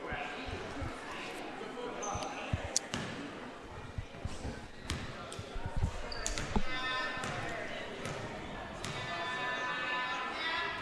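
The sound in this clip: A basketball is dribbled a couple of times before a free throw in a school game: a few hollow thumps under steady crowd noise, with a man talking over them.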